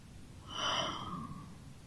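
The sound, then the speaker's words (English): One slow, deep human breath swells and then eases off over about a second. It is soft, breathy and heard on its own. “Take another deep breath, baby. Inhale the positive and exhale the negatives.”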